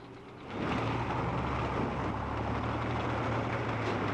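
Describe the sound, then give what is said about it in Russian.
Engines of a car and a motorcycle in a field: a low, steady motor rumble with a droning hum swells in after half a second and holds evenly to the end, with no voices. “Машина профессора и мотоцикл Вовиной бабушки тормозят в поле.”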